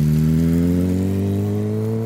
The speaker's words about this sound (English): She cinches up the neck strap, slides on her gloves, clicks the bike into gear, and launches onto the winding two-lane road.